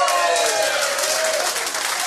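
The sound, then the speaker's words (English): Audience applause in dense, steady clapping fills the whole clip at an even, fairly loud level, with no clear pauses or peaks. “Round of applause for Wes, everybody.”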